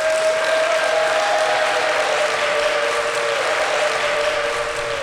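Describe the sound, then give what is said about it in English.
An audience applauds prison staff at an inmate program ceremony: dense, steady clapping held at an even, loud level, with a sustained high whistle-like tone running through it. “They cheered for prison employees, sometimes wildly.”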